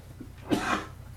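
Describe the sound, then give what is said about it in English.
A single short cough from a man with a lingering cough, one fairly soft burst heard alone. “I've got a cough today that just will not go. Sorry.”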